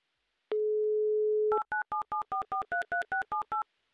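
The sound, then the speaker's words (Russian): A telephone dial tone hums steadily for about a second, then a number is dialed with eleven quick touch-tone beeps of varying pitch in an even rhythm, all fairly faint. “Я набираю ваш номер, надеюсь на ваш скорый ответ.”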